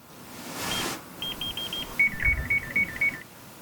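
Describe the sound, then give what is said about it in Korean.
Digital door lock keypad beeping as a code is entered: a row of short, high, evenly spaced beeps, then a quick wavering electronic melody of bright tones, all fairly faint over a low background hum. “도어락 비밀번호를 누르고 있다”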